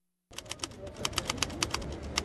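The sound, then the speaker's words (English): Keys clack on a 1968 Hermes Rocket manual typewriter at a San Francisco farmer's market, a quick, uneven run of many sharp strikes that starts after a brief silence and continues steadily. “I compose spontaneous poems on a manual typewriter, 1968 Hermes Rocket, straight out of Switzerland, man.”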